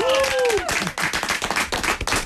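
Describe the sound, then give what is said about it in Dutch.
Audience applause: a brisk run of many claps at an even, fairly loud level that fills the short span. “Dames en heren, een groot applaus.”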